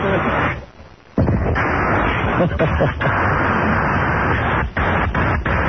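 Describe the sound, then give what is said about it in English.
A fire extinguisher being discharged onto burning plastic in a trash can: loud, rough bursts of blasting spray, with a short pause early on and a few brief dips as the stream is released and held again. “God forbid we ever have a real fire in here because there's going to be no fire extinguisher left.”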